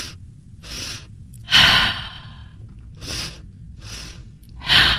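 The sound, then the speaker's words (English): Deep, deliberate breathing demonstrates the physiologic sigh: a series of audible airy breaths separated by short pauses. Two of them are sharper and louder than the softer ones, and there is no talking. “Like when we're trying to catch another breath, it's called the physiologic sigh.”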